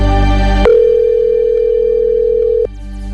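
A telephone rings while a quiz contestant is being called: one loud, steady electronic tone lasts about two seconds before cutting off.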